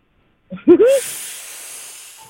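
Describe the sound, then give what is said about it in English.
A person draws a long breath: a short voiced sound gives way to a sustained, airy hiss that holds steady and slowly fades. “I was just drawing some breath.”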